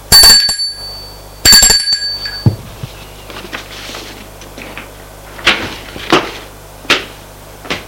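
Two bright metallic dings of a bell on a hotel reception desk ring out about a second and a half apart, each with a short ringing tail, followed by a few soft knocks and handling clunks.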